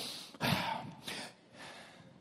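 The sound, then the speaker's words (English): A preacher teaching Bible verses stops to take breaths, giving a few soft, breathy rushes of air, the first and longest followed by two shorter ones, heard alone without speech. “I need to take a breath before I fall over.”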